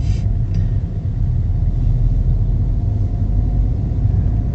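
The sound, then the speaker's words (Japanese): Low, steady diesel rumble from inside a 2 Series Gran Coupe 218d while driving, a constant deep drone with no voices. “今日これ車は何ですか。 今乗ってんのは2シリーズグランクーヴェですね、218D、ディーゼルモデル。”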